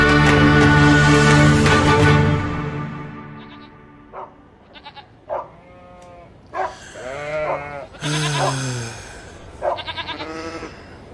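Sheep bleating: a dense, overlapping chorus of bleats at the start, then a series of separate wavering calls that vary in pitch and loudness, some short and some drawn out.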